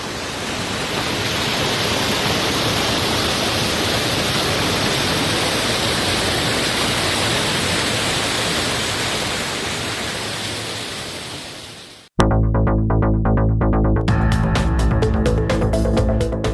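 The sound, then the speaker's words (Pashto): Water of the Mazar Baba spring in Uruzgan, Afghanistan, rushes in a loud, steady, hissing flow that fades slightly, then cuts off abruptly and gives way to a tonal passage. “د اورزګان د مزار بابا په نوم دا چینه د دې ولایت یو له مشهوره تفریحي او تاریخي سیمو څخه ده چې د ښکلي طبیعت او یخو اوبو په لرلو سره د خلکو لپاره د آرامۍ او ساتیري یو غوره ځای دی.”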